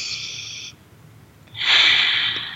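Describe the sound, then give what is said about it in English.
A human breath heard as two airy, hissing bursts of air separated by a short pause, the second longer and louder than the first. “Let's take a breath again.”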